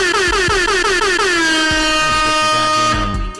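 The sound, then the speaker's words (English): Air horn sound effect blares loudly and without pause, its brassy pitch sliding upward at first, then holding steady for over three seconds, with a few low thumps beneath it. “Hold on, I gotta do another air horn for that”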